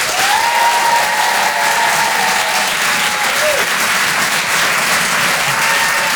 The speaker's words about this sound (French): Faites du bruit s'il vous plaît pour Charlie Niobé.